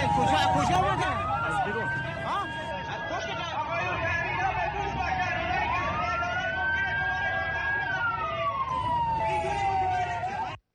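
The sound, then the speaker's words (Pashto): Wailing ambulance sirens with repeated rising and falling pitch sweeps as vehicles carry dozens of wounded to hospitals after a deadly attack in Iran, the sirens loud and continuous over crowd chatter. “د ایران تلویزیون هغه امبولانسونه ښایي چې په لسګونو زخمیان نږدې روغتونونو ته انتقالوي.”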